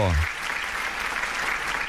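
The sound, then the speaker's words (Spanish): Applause from a small group, a steady patter of clapping that starts after a brief low vocal sound and stays even and moderately loud to the end. “Bueno, unos aplausos.”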